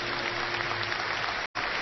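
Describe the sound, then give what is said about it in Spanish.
An audience applauds Guti and Roberto Carabajal with steady, dense clapping. The applause cuts out for a moment near the end and then resumes. “Un aplauso para ellos, por favor. Guti y Roberto Carabajal.”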